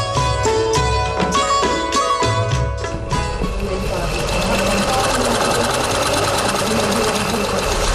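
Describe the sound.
Sewing machine stitching in a sewing class, a steady mechanical whirr that runs throughout at an even level, with a layer of tonal sound over the first three seconds.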